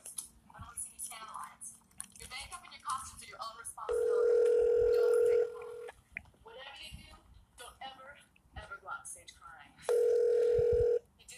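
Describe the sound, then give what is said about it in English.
A telephone call is placed and the line rings, with two long, steady ring tones separated by a stretch of talk and voices speaking around them. “so we're gonna call him back real quick. Hold on.”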